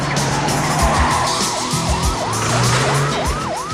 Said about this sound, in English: He concentrates as he skids around another corner.